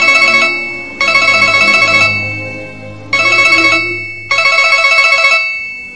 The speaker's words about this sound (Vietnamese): Điện thoại lại reo chuông.